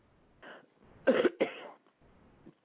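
A few quiet coughs come from a tickling throat: a softer cough first, two louder, harsher bursts close together in the middle, and a faint one trailing off at the end.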